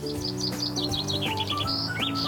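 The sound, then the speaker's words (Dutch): A chaffinch sings in the early-morning dawn chorus, recorded under a tree: many bright, rapid high chirping notes in quick runs, continuous and clear over a steady background. “Dit is de vink. Dat is waanzinnig mooi, zeg.”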